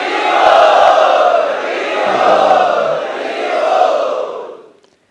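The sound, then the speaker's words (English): Crowd loudly chanting prayers in unison at a devotional gathering, a dense, sustained wall of many voices that swells and dips slightly before tapering off at the end. “So on the behalf of the IYS, let us express our heartfelt prayers for this upcoming summer tour of His Holiness Radhanath Maharaj by loudly chanting.”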